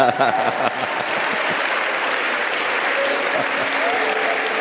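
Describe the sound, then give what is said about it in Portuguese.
An audience clapping for God at a church impartation service: dense, sustained applause holding steady throughout, with voices mixed in. “Come on, palmas para Deus.”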